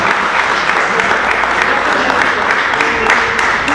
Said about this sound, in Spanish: Bueno, hay aplausos que echan, muchas gracias, lo tomo.